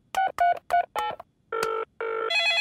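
Telephone tones in an animated children's cartoon: four short, evenly spaced beeps, then three longer electronic tones, the last a step higher in pitch. The tones sound alone, without talk.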